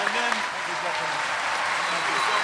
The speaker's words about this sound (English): Can I please have a huge hand for Mr. Sir Ben Kingsley?